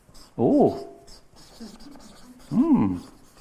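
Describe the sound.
Squeaky strokes of a pen drawing a dashed line by hand: two bright, tonal squeaks with wavering pitch, separated by faint scratching.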